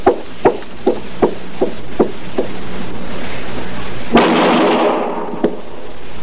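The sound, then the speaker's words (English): Gunshots fired in an alley: a quick, evenly paced series of sharp, loud cracks, then a heavier burst that trails off in a noisy wash and one last shot, with no talk. “All right, that's enough shooting”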